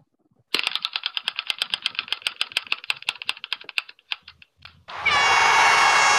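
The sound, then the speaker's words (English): A prize wheel spins with a rapid run of sharp clicks whose spacing widens as it slows and stops. A loud, sustained horn-like buzzer then blares to finish. “And let us go ahead and spin the wheel.”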